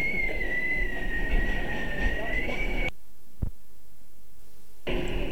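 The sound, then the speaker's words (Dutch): Vehicle rolling on tram rails along the Keizersgracht canal street, a low continuous rumble topped by a thin high whine that drifts slightly in pitch, broken by a near-silent gap midway before the rumble returns. “Die had een beetje probleem met het hoek nemen, maar nu ook prima op de sporen of de rails in de Keizersgracht.”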